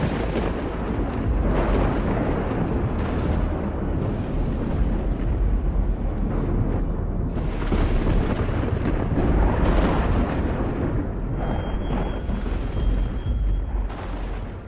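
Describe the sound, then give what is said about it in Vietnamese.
Thunder follows a lightning flash: a deep, sustained rumble that stays loud and broad for the whole stretch, swelling and easing slightly without clear individual cracks. No voices are heard. “trên bầu trời một tia chớp lóe lên, kèm theo đó là tiếng sấm sét rền vang”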